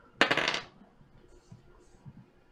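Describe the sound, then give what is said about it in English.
Twelve dice are rolled in a tabletop game. A sharp, bright clatter bursts out all at once, then a few faint rattles follow as the dice settle. “Bounce some dice. 12 of them.”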